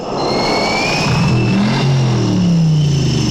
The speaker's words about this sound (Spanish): Es el último de los V8. Puedes cerrar la tienda después de este. No quedan más. el último de los V8. Casi nada, muchacho. Ocho cilindros, doble cámara. Dile lo del compresor.